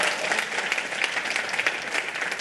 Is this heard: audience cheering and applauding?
yes